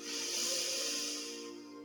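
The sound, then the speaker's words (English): A deep inhale through the nose during a guided light-bath meditation: one soft, airy hiss of breath that holds steady for over a second, then thins out and fades before two seconds. “Let's do it twice. Deep inhale through the nose”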